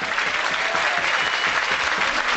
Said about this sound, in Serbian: Evo sada novih aplauza.